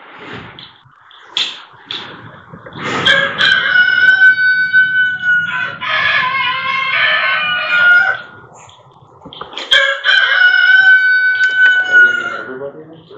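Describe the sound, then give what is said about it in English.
A rooster crows far too early, giving several long, harmonic cock-a-doodle-doo calls separated by short pauses, loud and strained, with softer clucking sounds in the gaps. “The rooster crows.”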